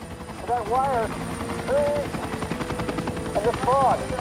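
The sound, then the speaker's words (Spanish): An FBI helicopter flying at about 150 metres along a highway at night while searching, its rotors making a steady rhythmic chop and continuous pulsing drone, with brief voices breaking in over it. “El piloto del FBI sigue la ruta 50. Mantiene una altitud de 150 metros mientras busca la luz estroboscópica.”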